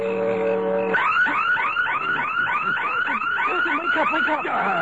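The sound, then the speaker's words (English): A burglar alarm rings loudly and without a break. It starts with a steady electronic tone, then changes to a fast, repeating warbling chirp that cycles evenly. “It's the burglar alarm.”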